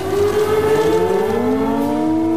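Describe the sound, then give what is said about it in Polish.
Civil defense sirens wail together to mark the 70th anniversary of the Warsaw Uprising, a loud, steady, layered drone of sustained tones whose pitch climbs slowly toward the end, with no talk. “W godzinę w 70. rocznicę wybuchu Powstania Warszawskiego zawyły syreny.”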